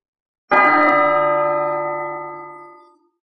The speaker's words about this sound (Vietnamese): Tiếng chuông vàng rung trời từ trong một ngôi chùa trên Tu Di Sơn truyền ra